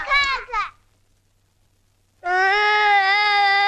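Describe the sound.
A young child crying: a short, broken two-part wail, a quiet pause, then a long, loud, sustained cry held at a steady pitch until the end.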